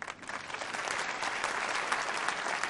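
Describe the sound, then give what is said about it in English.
Audience applause at an evening event: a dense, steady round of clapping that swells within the first moments and holds at an even level throughout, with no talk over it. “Let's give a nice round of applause for the help.”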